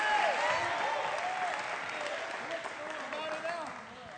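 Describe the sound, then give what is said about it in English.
An audience claps its hands together during a church service. The quiet, steady wash of clapping has voices rising and ringing above it. “You got to put your hands together.”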